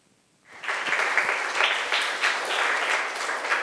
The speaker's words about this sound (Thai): ครูก็ต้องขอเสียงปรบมือให้กับตัวแทนนักเรียนอีกครั้งหนึ่งค่ะ